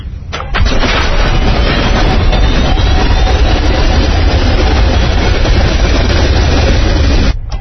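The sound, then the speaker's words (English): A reactor powering up before launch gives a loud, dense low rumble that swells in after a brief quieter start and then holds steady and unbroken for about seven seconds, with no voices. “You are clear to initiate power up.”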